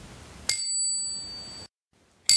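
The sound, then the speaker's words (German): An integrated bicycle bell, mounted on the handlebar between grip and brake lever, rings twice: a loud, bright, high metallic ding that decays slowly, then a second strike cut off at the end. “Das ist die Cobell. Oh. Genauso integriert wie alle anderen Komponenten auch. Schön auf dem Lenker zwischen Griff und Bremshebel.”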